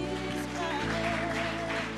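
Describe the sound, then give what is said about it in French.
Church audience applauding in acclaim of God: a continuous wash of clapping over sustained keyboard tones. “Gloire à Dieu, on acclame le Seigneur.”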